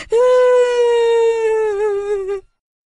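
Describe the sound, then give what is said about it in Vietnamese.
A frightened girl bursts into tears after scraping her forehead and seeing blood, letting out a single loud, sustained high-pitched wail that holds steady, then wavers near the end before cutting off abruptly. “Và nó sợ hãi, oà khóc.”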